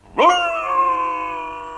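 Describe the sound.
A wolf howls alone: one long harmonic call that rises at the start and then holds a steady, clear pitch until it fades out.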